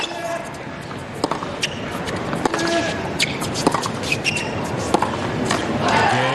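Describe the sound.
A tennis ball is struck on the serve and the return in a professional match, with the receiver standing far behind the baseline. Several crisp thwacks sound under steady commentary and low crowd murmur.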